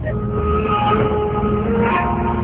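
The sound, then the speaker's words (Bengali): Steady rumbling of a train travelling on rails, on a journey from Dhaka to Maijdi in Noakhali. A continuous, loud, dense roar holds throughout, with faint tonal whines over it. “Dhaka থেকে ট্রেনে করে আমরা পৌঁছাই নোয়াখালীর মাইজদিতে।”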